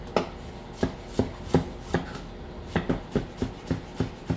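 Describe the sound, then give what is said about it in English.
A knife chops garlic cloves on a board in a steady series of sharp, crisp knocks. The strokes are evenly spaced at first, then quicken into a faster run of chops near the end. “I've got a couple of cloves of garlic here. I'm gonna probably chop 2 for this.”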